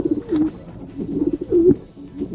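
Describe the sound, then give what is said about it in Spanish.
Pigeons coo in the square in front of Cádiz cathedral, giving several soft, low, throaty coos in an uneven rhythm with short pauses between calls. “No hay nadie, solo hay palomas.”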